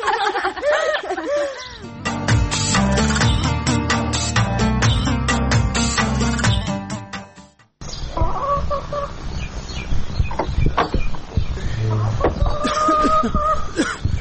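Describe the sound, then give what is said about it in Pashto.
Chickens cluck busily while being fed dry bread. A dense, loud run of clucks and squawks drops out briefly around the middle, then carries on just as thickly. “دلته یم، چرګانو ته وچه ډوډۍ خیشته وم.”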